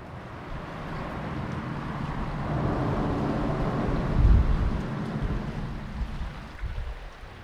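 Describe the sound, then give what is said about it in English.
Broad, steady rushing of river water from the Jackson River at a public boat launch in Covington, Virginia, a low continuous wash with a brief swell in loudness midway, no voices. “That's the sound of the Jackson River at a public boat launch in Covington, Virginia, on June 3, 2017.”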